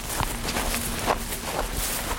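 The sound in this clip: Faint footsteps as someone walks through rows of apple trees on a field at a fruit-growing research station: a few soft, irregular steps over a steady outdoor hiss.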